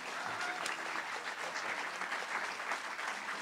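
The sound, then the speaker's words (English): A standing church audience at Shore Christian Church in Asbury Park gives sustained applause, with dense, steady clapping throughout and no breaks. “So if you will stand up and put your hands together and give a big Shore Christian Church welcome to my friend, Pastor Adam Durso.”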